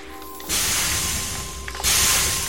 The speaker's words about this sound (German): Wir bohren uns jetzt in die Versorgungsleitungen des Hochhauses.